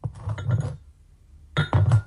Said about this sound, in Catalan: A veure, posa la lent damunt la taula.